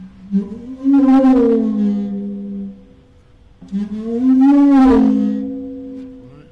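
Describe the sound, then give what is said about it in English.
A small rubber ball mallet rubbed across a drumhead makes two long, squealing moans, each swelling and then fading, separated by a short pause, with a whale-like tone. “You know, we can get all kinds of different sounds. This is a smaller rubber ball here.”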